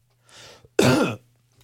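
A person coughs into a microphone fitted with a cough button that cuts the mic: a soft breathy exhale, then one loud, rough, throat-clearing cough burst, alone without talk.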